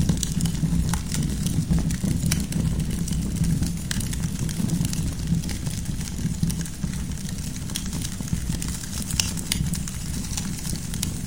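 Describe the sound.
A campfire crackles with many sharp, irregular pops and snaps scattered over a steady low rumbling background.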